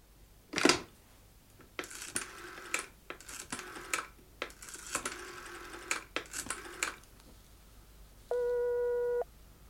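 A telephone rings for a late incoming call, sounding as one short, steady, chiming burst at the very end, after a run of irregular clicks, taps and clattering knocks.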